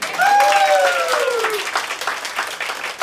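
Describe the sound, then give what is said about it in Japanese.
Applause from an audience, a burst of many hands clapping that starts loud and continues steadily with slight fading, while a single voice speaks briefly over the opening. “え、今日拍手。”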